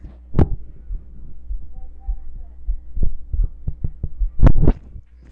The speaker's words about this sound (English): You want to hear my heartbeat?